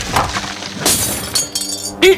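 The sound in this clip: Glassware and crockery shatter and clink as they fall during a big earthquake, with a few sharp crashes followed by bright tinkling fragments over about two seconds.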